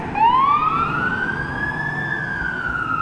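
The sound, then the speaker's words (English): A backup fire truck passes with its siren wailing, one loud tone sweeping upward and then holding high over rumbling road noise. “Backup fire truck passing right now.”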